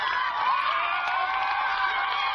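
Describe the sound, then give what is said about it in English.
Cheering and high-pitched shouting from a crowd of children and teachers at the finish line of a school race, a steady, dense roar of voices without a break. “Teachers watching at the end, the cheers at the finish line.”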